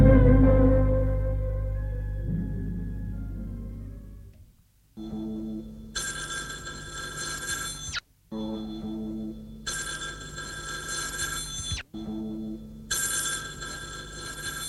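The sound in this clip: A telephone rings after a brief musical passage fades out, its bell sounding in three long, bright, insistent bursts separated by short gaps.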